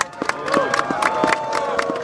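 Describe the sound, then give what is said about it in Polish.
Parliamentarians applaud with brisk, rhythmic clapping that keeps a steady beat, amid loud crowd noise. “proszę o brawa ze strony wszystkich parlamentarzystów teraz dla was właśnie.”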